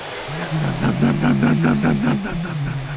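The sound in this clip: A man's voice imitates a vacuum cleaner with a steady, low, nasal droning hum that pulses rhythmically, loud and continuous throughout.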